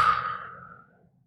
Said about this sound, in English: Inhale. Hold it for 3. And exhale.